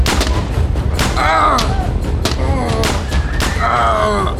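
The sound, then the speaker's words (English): Rubber bullets fired from guns in a staged drama scene: a dense run of sharp cracks and thumps while voices shout over the shooting. “They got rubber bullets! This is madness!”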